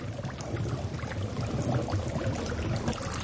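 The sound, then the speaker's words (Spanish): Water rushes into a flooding submarine in a loud, continuous churning flow that holds steady from start to finish. “En el Kursk, el agua continúa entrando.”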